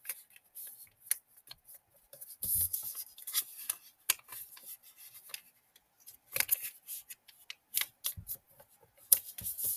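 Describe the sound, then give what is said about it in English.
Paper being folded and flipped over by hand: faint, irregular crisp clicks, taps and crinkles with quiet pauses between bursts of handling. “Okay, so I just folded all the corners in, and then I'm going to flip it over and fold the corners in on this side.”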